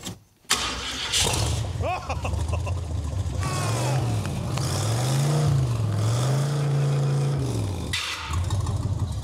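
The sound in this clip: A 1990s car engine cranks and catches, settles into a rough idle, then revs up several times with its pitch rising and falling, while people talk over it.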